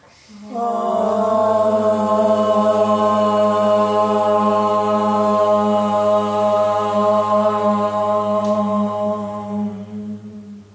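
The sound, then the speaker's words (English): A group chants a single long Om at the close of a yoga practice, a low, steady, resonant drone rich in overtones that holds for several seconds and then slowly fades away. “We'll close practice with a single sound of Om. Exhale your breath. And inhale for Om.”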